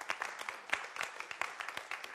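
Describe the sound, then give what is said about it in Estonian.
Applause at a church home-group gathering in honour of its leaders: faint, sparse clapping from a few people, with scattered sharp claps at an uneven rhythm. “aplaus neile. Julgustus!”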